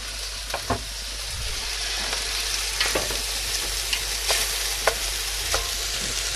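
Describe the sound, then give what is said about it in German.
Food sizzling as it is browned again in a pan after excess liquid has been drained through a sieve, before onions go in; a steady, loud hiss runs throughout with many sharp crackles and pops scattered over it. “gießt das dann ab auf dem Sieb, wenn es zu viel wird und bratet das Ganze dann nochmal an.”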